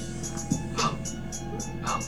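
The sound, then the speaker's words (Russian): A person imitates a dog, giving two short, yappy bark-like yelps spaced about a second apart over a steady background hum with faint rhythmic ticking. “Не гавкай”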